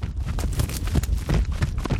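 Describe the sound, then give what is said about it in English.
Hooves of an Arabian horse running in a circle, picked up by wireless microphones fixed to each hoof. The thuds are loud and heavy and fall in a quick, uneven rolling rhythm, with no voices. “I recorded an Arabian horse. Arabians have a different gait than thoroughbreds, and I put four wireless microphones on each hoof.”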